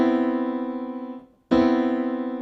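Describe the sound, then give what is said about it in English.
A rootless voicing chord played in the left hand on piano, struck twice: a warm, sustained mid-register chord rings, fades out briefly, then is played again and keeps ringing. “And what am I going to play in my left hand? I'm going to play a rootless voicing, something like this.”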